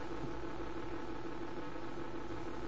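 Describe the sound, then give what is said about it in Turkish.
Spacecraft thrusters running give a steady, dense roaring drone with a low humming core. The level holds constant and unbroken throughout, with no voices. “İticileri çalıştırır mısın? Acele edin, sıcaklık çok yükseldi. İticileri çalıştırıyorum.”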